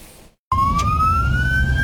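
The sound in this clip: An ambulance siren wails through Istanbul traffic as cars pull aside to open a lane. A loud, steady tone rises slowly in pitch over a continuous low rumble of traffic.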